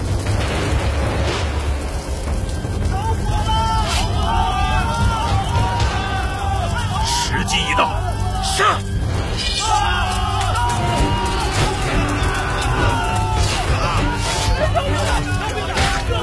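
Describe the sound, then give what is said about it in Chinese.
War drums and shouting from ambushing soldiers as fire breaks out: a dense, continuous wall of crowd yelling with heavy booming bursts scattered throughout. “点火，得令。司马，火起了，命令埋伏的兄弟们擂鼓呐喊。得令。”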